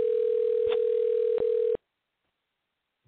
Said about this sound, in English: Okay, we're dialing.